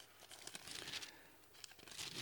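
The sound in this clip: Bible pages being turned toward a chapter in Luke, giving faint, continuous papery rustling and crinkling with a few sharper flicks, alone without voices.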